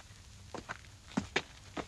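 Footsteps walking over to a cottage, with a few soft, faint steps at an uneven pace.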